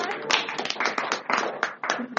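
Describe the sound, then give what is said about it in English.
Audience clapping for a teacher at a school gathering: a short, uneven burst of many hands clapping, with voices mixed in underneath. “May I clap for that teacher.”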